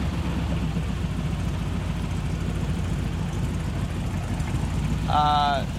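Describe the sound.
The Dynaliner Coupe's engine idles with a steady low rumble, even and unbroken, and a voice cuts in briefly near the end.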